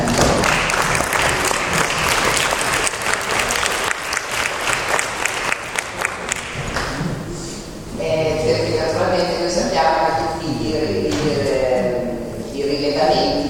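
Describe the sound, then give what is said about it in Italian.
Audience applause at a university history conference in Padua: dense, sustained clapping for about seven seconds, after which a voice begins speaking. “io farei un applauso”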